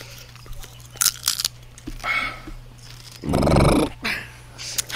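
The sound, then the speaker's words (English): A person biting into and chewing crunchy pub snack bites, heard as irregular, crisp crunches. One louder, longer grinding burst comes past the middle, followed by softer chewing. “Where's my bite? Here you go. What do they taste like?”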